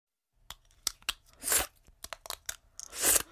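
Invisalign dental aligners being taken out of the mouth: a quiet run of sharp plastic clicks and small snaps, broken by two louder crackling, scraping bursts, with no talking.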